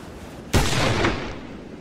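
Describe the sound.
A single pistol shot in a duel, a sharp sudden blast out of quiet that trails off in a rough, decaying roar.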